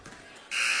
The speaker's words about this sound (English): Ah, they do have a buzzer.